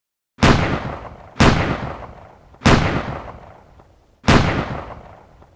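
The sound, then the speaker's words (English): Four loud gunshots from a Colt 1911 pistol ring out at roughly even intervals, each a sharp crack followed by a long, fading tail. “Without thinking, without blinking, Joseph Doherty raised his Colt 1911 in the direction of Frederick Bronski and fired four shots.”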